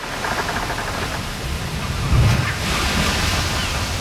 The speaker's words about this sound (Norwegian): Vi ute på sjøen i Karibien.